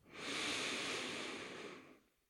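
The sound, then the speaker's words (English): A single deep inhale taken during a guided breathing exercise, heard as a soft, airy hiss. It swells quickly, holds evenly for well over a second, then fades out. It is quiet and alone, with no talk. “Let's take a deep, thankful breath, all of us together. Inhale.”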